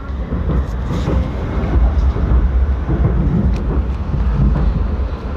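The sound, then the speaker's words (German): Upper Austrian local train running through the Eferding Basin, heard as a continuous low rumble with a faint rattling clatter on top, steady and fairly loud for several seconds with no talking. “Wir besteigen aber jetzt einen oberösterreichischen Lokalzug, der mitten durch das Everdinger Becken fährt.”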